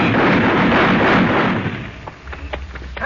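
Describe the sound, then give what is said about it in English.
Gunfire from an M1 rifle in a wartime clash with a German soldier: a loud, dense roar of shots for about two seconds, then a few sharper separate cracks as it thins out. “They heard the shots.”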